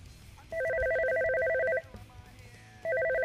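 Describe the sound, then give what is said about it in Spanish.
A telephone rings with a bright electronic warbling trill in two steady bursts separated by a short pause, the second burst cut off at the end, with no voices. “Tenemos una llamada. Dígame.”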